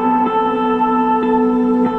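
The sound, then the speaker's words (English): A simple music riff played through a dreamy reverb effect meant for a Rhodes-style keyboard: sustained, shimmering chord tones hold steady while a few soft note attacks bloom and wash into a long, smeared tail. “But it's really like I have this reverb here. I guess it's meant to be put on like a Rhodes, like a keyboard. But it's really quite dreamy.”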